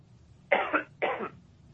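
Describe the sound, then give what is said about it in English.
Two short, sharp coughs from one person, about half a second apart, rising out of near silence. “And I'm going to cough.”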